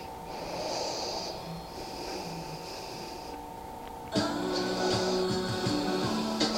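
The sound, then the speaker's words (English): A deep inhale taken while reaching up in a yoga lunge. Nasal, breathy airflow and a few snort-like breaths sound over a steady background, with no one speaking. “Reaching to the sky, filling your body up with breath.”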